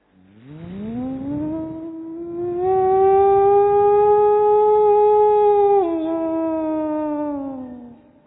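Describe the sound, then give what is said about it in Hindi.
A factory siren winds up from a low growl to a loud, steady wail and holds there for several seconds. Its pitch drops slightly once before it winds down at the end. “Siren बजा दे हाँ siren बजा दो ठीक है siren बजा देते factory में siren बजता है”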